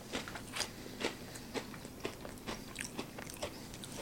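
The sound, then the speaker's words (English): Crisp crunching as someone bites and chews a wheat cracker topped with cheap, ultra-processed hot dog: a steady series of short, dry crunches about half a second apart, fairly faint, with no talk. “So let's try it on a cracker, see if it's better.”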